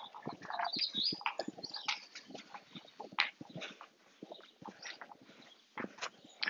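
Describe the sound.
Galloping footsteps of a person riding a hobby horse: many quick, uneven thumps and scuffs in a loose, bouncing rhythm, moderately faint, with a few brief pauses.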